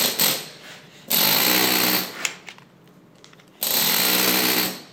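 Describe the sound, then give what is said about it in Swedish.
A toothed chisel dresses a stone surface, cutting a grooved finish: three long bursts of rapid, loud, continuous hammering with short quieter gaps between them. “Med det här tandhuggning, du får ett helt annat djup och ett helt annat utseende på stenen. Du får den här gamla utseendet.”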